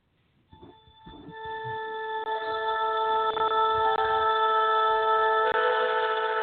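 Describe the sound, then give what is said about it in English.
A cell phone rings with a steady electronic ringtone of bright layered tones that starts quietly, swells and then holds loud and continuous to the end, with no talking. “The cell phone, the final frontier. These are the continuing calls you receive on this hailing frequency. Your continuing mission, to answer the cell phone when it rings,”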